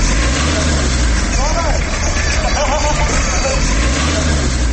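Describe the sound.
Steady mechanical drone from the electric machine of a fairground swing ride, a low, engine-like hum that runs unbroken throughout, with voices in the background.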